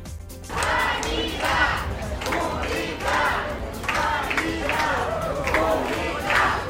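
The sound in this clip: Dozens of hospital workers in Madrid shouting at the regional president as she arrives for a visit: a loud crowd chant repeated in a steady rhythm, with each collective shout rising and falling in turn.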